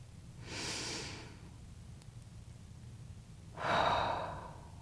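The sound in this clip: A slow, deep breath taken during a guided breathing exercise: a soft, drawn-out inhale, a quiet pause, then a longer, louder, airy exhale.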